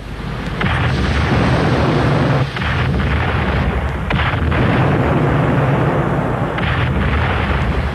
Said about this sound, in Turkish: Leventlerim, topçularım, ateş.